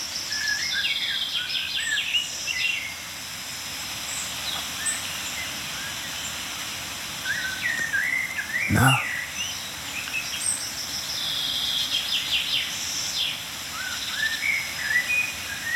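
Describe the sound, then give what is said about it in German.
Birds calling outdoors: a blackbird, a chaffinch and tits give many short, high chirps and trills scattered over a soft, steady background hiss, with one brief sharp knock near the middle. “ja, Amsel, Buchfink, Meisenrufer.”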